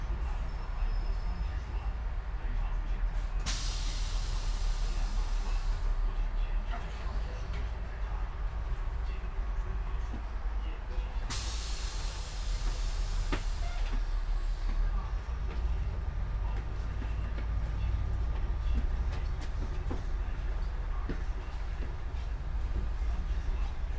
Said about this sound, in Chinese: 车辆起步，请扶稳坐好。